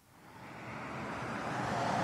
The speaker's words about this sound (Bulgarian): Намирам се в участъка на автомагистрала Тракия, който се отремонтира. Тук възможността да попаднете в ТАПа е почти гарантирана. Движението е доста голямо